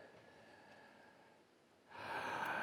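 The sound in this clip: A person takes a sharp breath: a quick, breathy inhale rises in loudness near the end after a quiet stretch of soft hiss, with no talking.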